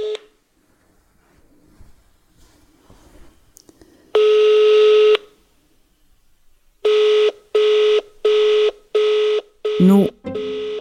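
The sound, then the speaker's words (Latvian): An electronic ringing tone sounds while a phone call is placed: one sustained steady beep, a pause, then a run of about five shorter beeps at the same mid pitch, ending in a brief warbling burst. “tāpēc pēc pāris nedēļām mēģinu viņu sazvanīt”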